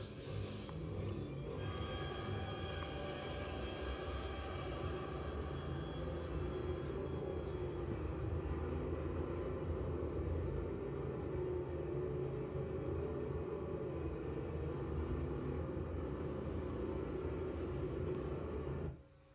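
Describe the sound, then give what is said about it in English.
A snowcat engine from the film The Shining rumbles as the vehicle drives, a heavy, steady low drone that holds without a break for the whole stretch and then cuts off abruptly. “Took so long getting there. He's driving a snow tank.”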